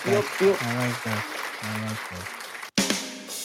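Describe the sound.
A single sharp hand clap breaks in near the end after a brief gap, during a relaxed conversation in which people keep talking around it.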